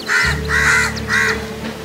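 Three harsh, raspy caws from a crow, each lasting a fraction of a second with short gaps between, heard over a steady low hum.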